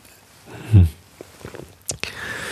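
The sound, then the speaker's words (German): A person takes a sip of a drink, starting with one soft, low gulp followed by small wet mouth clicks and a couple of sharper clicks near the end. “So, einen Schluck getrunken. Vielleicht geht meine Stimme dann gleich wieder besser.”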